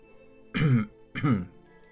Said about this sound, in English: cleared his throat and stopped laughing